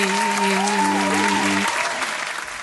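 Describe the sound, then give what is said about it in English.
Audience applause welcoming a guest onto a leadership talk show: steady, dense clapping that carries on throughout and eases off slightly toward the end. “would you put your hands together and help me welcome to the show”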